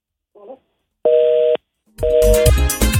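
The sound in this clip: A telephone tone sounds on a call-in phone line after a call drops. A faint short blip comes first, then a steady electronic tone lasting about half a second, which returns once under a louder burst of mixed sound.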